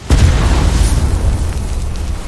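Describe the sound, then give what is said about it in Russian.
A heavy explosion boom as two grenades detonate together on a dance floor, hitting abruptly with a loud, deep rumble that holds steadily to the end. “Два взрыва слились воедино, и на мгновение их гром перекрыл грохот зажеванной музыки.”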